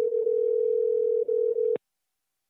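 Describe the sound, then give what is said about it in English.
A telephone dial tone plays while someone is being called: a steady, fairly loud tone holds for almost two seconds, briefly dips twice, then ends with a click and falls silent. “Jesus and I agreed to stay in touch, and about 2 months after camp ended, I dialed him up.”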